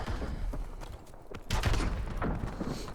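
Shotgun blasts fire in a video game, a few sharp percussive bursts standing out from a dense, noisy bed of gameplay sound.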